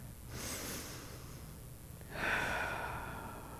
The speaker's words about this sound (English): So I'm going to do now what I've done so many times this year. Let's take a deep breath.